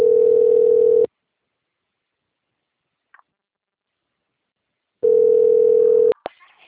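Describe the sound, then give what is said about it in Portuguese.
The ringback tone of an unanswered telephone call: two loud, steady tones of about one second each, separated by a long silence, with a faint click near the end. “Chama, não atende. Aí eu fico ligando.”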